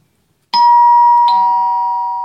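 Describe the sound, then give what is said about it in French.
A doorbell at a theatre chimes twice in quick succession: two loud, bright strikes, each leaving a long ringing tone that slowly fades. “On sonne.”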